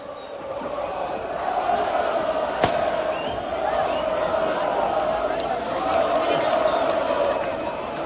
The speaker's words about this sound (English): That is the sound of 60,000 Lens fans welcoming their team back after they beat Nice to win the Coupe de France for the first time in their 120-year history.